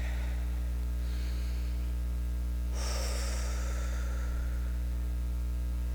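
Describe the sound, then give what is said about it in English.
People in a church audience take a deep breath in: one soft, breathy inhale swells up and fades over a steady low mains hum, with a fainter breath just before it. “Let's breathe that in.”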